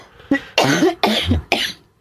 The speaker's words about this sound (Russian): Да, что-то закашлялось. Продуло меня тут на встречах с жителями.